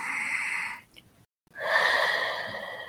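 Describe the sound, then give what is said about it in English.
Two long, soft, airy breath sounds are drawn deeply through the mouth, separated by a brief silent pause, with no talking. “So just breathe. Come on, you can do it. Take another deep breath.”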